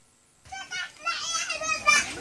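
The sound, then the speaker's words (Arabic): Children's voices playing and swimming in a small pool set up among tents at a displacement camp: excited, high chatter rises and falls in a brief lively burst. “هؤلاء الأطفال يسبحون في هذا المسبح، يلعبون”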